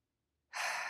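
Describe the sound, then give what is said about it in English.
A single deep breath taken during a calm breathing and relaxation exercise. It is a soft, airy rush that begins abruptly after a moment of near silence and holds steady to the end. “at some point you might get a deep breath like I just had”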